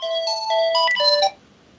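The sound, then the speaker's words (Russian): Electronic melodic ringing of a landline telephone: a quick run of bright, stepped tones that repeats for just over a second and then cuts off, with no voices. “Иногда не вовремя звонит городской телефон.”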